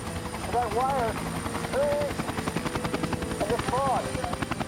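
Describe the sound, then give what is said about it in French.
A helicopter flying low along a road at night, about 150 metres up, its rotor chop a steady, rapid thumping that lasts throughout. Brief tonal voices rise over it a few times. “Le pilote du FBI continua de longer la route 50 à une altitude précise de 150 mètres à la recherche de la lumière stroboscopique.”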